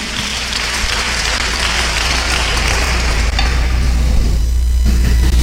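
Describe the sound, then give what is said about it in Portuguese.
Church audience applauding during a sermon, a loud, continuous, dense patter of many hands clapping that holds steady throughout. “E o interessante, pode aplaudir, pode dar glória”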